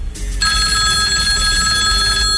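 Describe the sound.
A telephone rings with an incoming call: a loud, continuous electronic ring that holds an even, high tone from start to finish with no talk over it.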